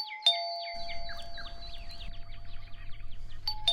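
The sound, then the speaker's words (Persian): An electronic doorbell rings a morning visitor's arrival with a quick run of high, chirping, bird-like notes over a steady tone. A sharp click starts it and another ends it, and the whole sound is fairly faint. “ای بابایی هم که در زنگ زده.”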